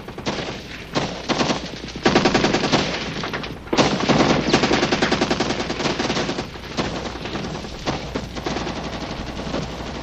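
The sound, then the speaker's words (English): Dense gunfire from several guns recorded one shot at a time, layered into rapid, continuous bursts that form a loud, sustained fusillade with no talking. “recording these guns one at a time, so that the sounds you hear, where it sounds like everything's going off at once, actually that was all recorded one shot at a time.”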